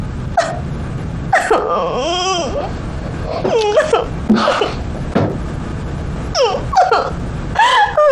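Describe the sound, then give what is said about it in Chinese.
A person cries and sobs in loud, wavering vocal bursts that rise and fall in pitch, separated by short gasping pauses, with no clear speech. “你能不能先不哭了？”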